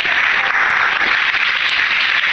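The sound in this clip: Congregation applauding during an evening church worship service, a dense, steady wash of many hands clapping that stays loud and even from start to finish.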